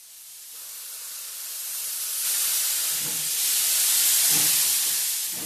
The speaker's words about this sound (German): Hört sich an wie eine Lokomotive